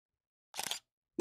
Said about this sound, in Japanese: 写真撮ろうっと。はーい、こっち見て。